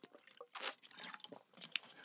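Someone takes a quick drink of water: faint, wet gulping and swallowing with a few soft clicks and squishes, quiet and brief.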